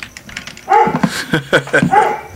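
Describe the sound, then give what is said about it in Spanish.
A dog tied up on a short leash barks fiercely in a quick, loud run of sharp barks after a quieter opening moment, with no talk over it. “anda el perro muy feroz de fondo. Sí, es que aquí lo tenemos aquí en cortito. Como que lo amarraron y está acá ladre y ladre.”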